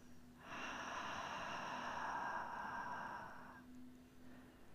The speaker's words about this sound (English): Once again, inhale through the nose. Open mouth exhale.